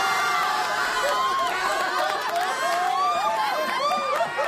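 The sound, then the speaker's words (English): A studio audience on a show cheers, shouts and chatters loudly without pause, a dense mass of overlapping excited voices that drowns out a speaker. “Sorry, Tyler, I feel like the audience is cutting you off. You might have to speak up a little bit.”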